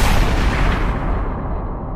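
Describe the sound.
Heavy gunfire booms as authorities open fire on a zombie-like figure: a dense, loud, low rumbling blast that runs steadily for about two seconds and thins slightly toward the end, with no separate shots standing out.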